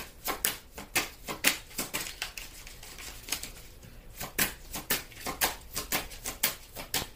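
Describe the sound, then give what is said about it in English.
Tarot cards being shuffled and scattered, a rapid run of many crisp papery slaps and riffles in an uneven rhythm, with a short lull in the middle before the flurry resumes. “Cards went every way. I had 2 cards go that way and 4 cards go this way.”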